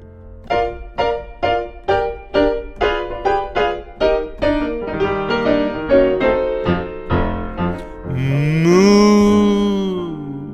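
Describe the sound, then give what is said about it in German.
Cattle mooing: short, rhythmic harmonic notes repeat steadily, then a single long, loud moo rises and falls at the end. “Wir sind die Rinder vom Dienst.”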